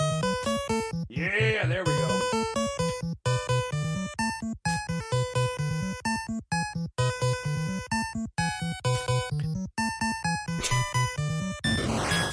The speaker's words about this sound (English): this is the NES version, like, that you're hearing gameplay there.